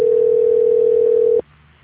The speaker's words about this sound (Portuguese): Só um minuto, por favor, que eu vou transferir a sua ligação. Ok. Transferência.